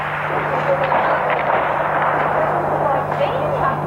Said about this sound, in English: What's that? Gunshots. Live action here at Port Arthur.